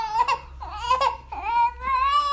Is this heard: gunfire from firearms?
no